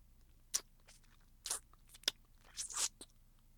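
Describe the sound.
Wet nibbling and eating mouth sounds at an ear: a few sharp, crisp crunchy bites and smacks with short pauses between them, fairly quiet, with no talking.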